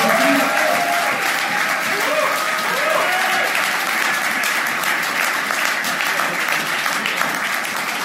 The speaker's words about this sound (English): So, come on, put your hands together. Welcome our speakers.